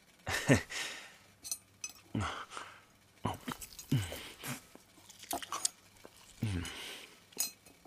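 Home-cooked food being chewed and bitten, irregular moist crunching bursts of varying loudness with brief pauses between, and a few light clinks scattered through.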